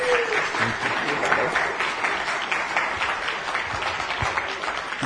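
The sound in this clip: Church audience applauding to welcome a guest speaker to the pulpit, a dense, steady clapping that holds at an even, fairly loud level throughout.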